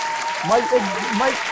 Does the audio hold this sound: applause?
yes